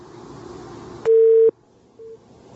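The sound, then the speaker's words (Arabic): Telephone busy tone after a call is cut off: a loud, steady mid-pitched beep of about half a second, then a shorter, fainter beep, following a stretch of low line hiss. “قطع اتصال.”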